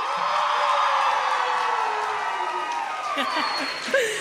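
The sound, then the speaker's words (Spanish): A live audience cheers and whoops at a show in the Lunario del Auditorio Nacional, a sustained wash of crowd noise with scattered shouts that swells briefly near the end. “¡Eso! Como pueden escuchar, hay público en vivo, público hermoso en vivo que nos acompaña hoy.”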